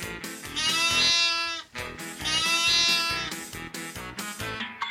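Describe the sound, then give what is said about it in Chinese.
Sheep bleating in two long, quavering, nasal calls with a shorter call trailing after, sounding over a steady rhythmic backing of music. “我最喜欢吃草跟晒太阳了，聪明的小朋友，猜对了吗？我就是绵羊。”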